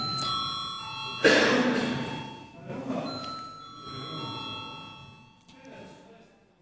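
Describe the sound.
Bell rung in a parliamentary chamber to call members to a vote: sustained, chime-like ringing tones with a sharp louder strike partway through, heard over murmuring background voices.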